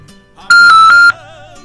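Ringing tone on a phone call: a single loud, high-pitched beep lasting just over half a second, sharply cut off.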